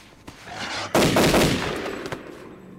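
Rifle gunshots: one loud, sharp report with a long rolling decay, with a fainter crack just before it and another near the end, and no voices.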